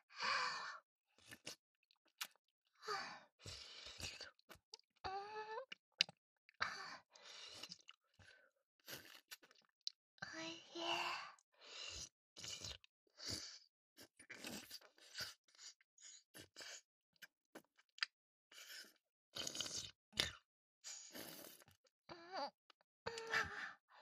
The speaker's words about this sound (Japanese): アイスキャンディー。おいしい。甘くって口の中とろける。